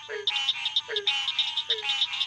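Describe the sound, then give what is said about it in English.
A chorus of frogs croaks on a muggy night in a Florida Panhandle sandhills nature preserve. Dense, high trilling calls repeat continuously, and lower dropping croaks recur a few times beneath them. “This symphony of frogs fills the muggy night air at Nagusi Plantation.”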